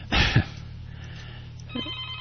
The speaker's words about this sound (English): And I see that someone seems to be calling in. Try again, caller. I'm afraid the phones have been turned down, so I'm going to